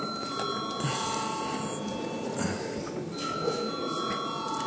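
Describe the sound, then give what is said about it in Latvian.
A voting bell rings in the Latvian parliament chamber, a steady, continuous electric ringing that holds at an even level throughout. “Lūdzu zvanu.”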